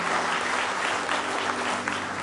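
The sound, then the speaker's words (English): Congregation clapping hands in praise during a morning church service. Thick, continuous applause holds at a steady, loud level for the whole clip. “Let's give him a good hand clap of praise in the house of the Lord this morning.”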